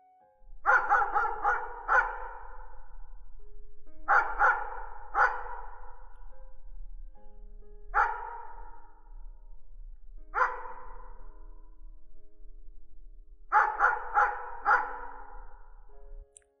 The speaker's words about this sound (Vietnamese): tự nhiên có con chó ngoài sân nó cứ sủa.